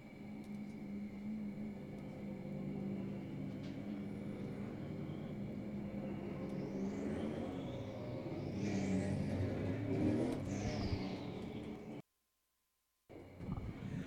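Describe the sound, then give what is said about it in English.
Race car engines roar on track during a Pro Stock heat race: a loud, steady engine drone with a few rising and falling pass-bys, then a brief cut to silence near the end. “Atlantic Tiltload Heat's on track now. Let's go Pro Stock Racing.”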